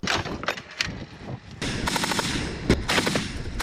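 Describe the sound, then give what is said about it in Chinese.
Heavy machine gun fire from Russian troops at Vuhledar, Ukraine, during fierce combat: loud rapid bursts with short breaks at first, then a sustained, dense rattle of continuous shots. No voices are heard. “俄军重机枪班在战事激烈的胡利达尔对乌克兰的反攻部队展开回击。”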